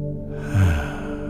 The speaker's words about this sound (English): allow yourself to take a deep, nice breath.